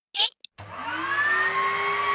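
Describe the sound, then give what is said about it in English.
Vacuum cleaner hoovering a pet's cage. After a few short clicks, a steady motor whine starts and holds, faint and even, with no talk over it. “I'm going to hoover Bruce's cage.”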